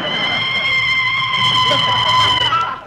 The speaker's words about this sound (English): Gosh, boss, how could you reach the brake from the back seat?